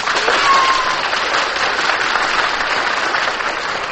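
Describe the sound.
A studio audience applauds with steady, dense clapping that holds at an even, fairly loud level throughout, with no voices on top.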